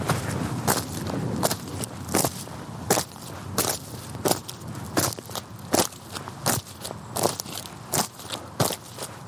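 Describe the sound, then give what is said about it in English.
Crunching footsteps of big, clumpy walking boots stomping on the bristly stubble of a harvested field, many heavy, evenly paced steps, each with a dry crackle. “That is the sound of A. Buckles wearing big, clumpy walking boots and stomping on the bristly tops of stubble in a field”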